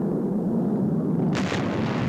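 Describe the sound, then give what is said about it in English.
The XL-18 spacecraft explodes in a science-fiction sound effect: a loud, steady roaring rumble with a sharp, hissing burst of noise flaring up about two-thirds of the way through. “It blew up, sir! The XL-18 blew up!”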